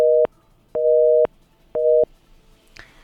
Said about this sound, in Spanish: Bien, se nos ha cortado la llamada con Grecia, pero ya la estamos nuevamente localizando